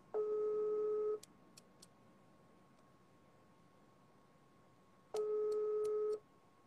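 Telephone line tones sound while someone tries to call a person back. Two steady, buzzy one-second tones stand out alone, about four seconds apart, with faint clicks and a low hiss in between.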